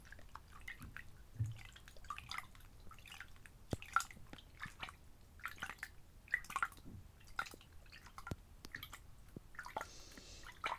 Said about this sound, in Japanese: では、水で流していきますね。